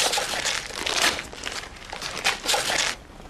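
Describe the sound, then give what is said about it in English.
Gift wrapping paper is ripped open off a present, giving a steady, dense crinkling and crackling with several louder tearing surges throughout. No voices are heard. “All right, I'll rip it.”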